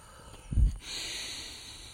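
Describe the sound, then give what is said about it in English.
A deep breath in that starts with a short, snorting burst, then turns into a soft, steady airy hiss that lasts to the end. “Let's breathe in”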